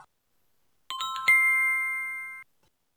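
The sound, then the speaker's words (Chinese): An ice cream vendor's bell chimes twice in quick succession, bright, clear tones. The second strike rings on and slowly fades before cutting off, with nothing else around it. “远处传来了卖雪糕小贩的铃声”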